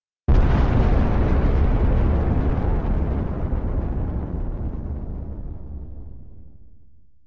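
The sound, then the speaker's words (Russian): A planet explodes in a single massive blast that erupts suddenly at full loudness. Its deep roaring rumble fades slowly over about seven seconds. “К этому моменту он покрылся пылающими трещинами, которые раскололи земную кору. А после — взрыв.”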